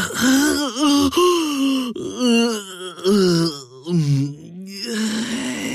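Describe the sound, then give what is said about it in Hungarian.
A human voice imitates a long, sleepy yawn for a chair in a children's tale: several loud, moaning vocal swells that waver up and down in pitch, with breathy gasps between them. “És ásított egyet.”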